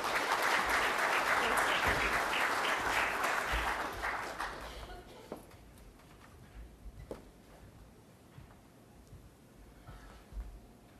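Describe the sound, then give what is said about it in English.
Audience applause welcoming the UBCM president to the stage: dense, steady clapping for about four seconds, then fading to a low murmur with a few scattered claps. “So please put your hands together and welcome our UBCM president, Sav Dhaliwal.”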